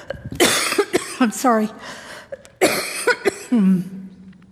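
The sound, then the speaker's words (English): A series of loud, harsh coughs from a tickle in the throat, coming in several rough bursts with short breathy gaps and voiced, throat-clearing tails. “When you've got a tickle in your throat, there's no way to get away from the cough.”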